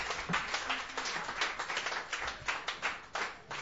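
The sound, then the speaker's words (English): Applause from an open mic night audience welcomes a performer to the stage: many hands clapping in a quick, uneven patter at a moderate level. It continues steadily without voices and with no clear build or fade. “Please put your hands together for the beautiful Laura.”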